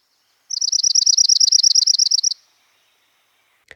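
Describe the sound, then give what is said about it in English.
A songbird trill from a chipping sparrow or dark-eyed junco: a loud, high-pitched, dry run of many rapid, even notes at a steady pitch lasting about two seconds, followed after a pause by one faint click. “a trill is notes too fast to count but repetitive, such as this chipping sparrow, or this dark-eyed junco.”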